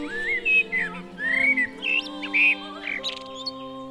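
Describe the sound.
Birdsong at daybreak: a string of clear whistled phrases and quick chirps, varied in pitch and spaced by short pauses, heard over a steady low drone.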